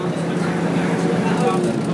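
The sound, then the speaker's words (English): Noisy bus with an automatic gearbox, a loud continuous engine drone with a steady low hum and broad rumble that stays even throughout. “as I'm sure you can hear, this bus is pretty damn noisy. It's got an automatic gearbox which is changing beautifully smoothly,”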